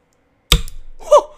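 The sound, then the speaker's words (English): A switchblade pulled from a pocket knocks against the microphone, giving one sharp, heavy thump followed by a brief scraping rustle. “That was the sound of my switchblade coming out of its pocket and accidentally hitting the microphone.”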